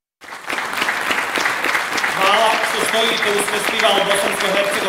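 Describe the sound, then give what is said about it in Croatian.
An audience at a Bosnian-Herzegovinian drama festival in Zenica applauds an empty stage. The clapping is loud and sustained, and a voice speaks over it from midway on. “Umjesto aplauza upućenog glumcima, učesnicima festivala bosansko-hercegovačke drame u Zenici, sinoć se aplaudiralo praznoj sceni”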